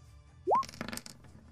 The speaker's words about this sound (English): Throw a second knife.